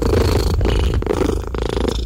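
A rescued cat purrs contentedly in a continuous, low, rough rumble that pulses steadily, with no voices.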